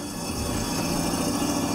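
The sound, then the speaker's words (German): A tram runs along a street shared with cars, giving a steady, fairly quiet rumble and hiss of rail travel without clear breaks. “Die Bahn muss sich die Straße mit den Autos teilen.”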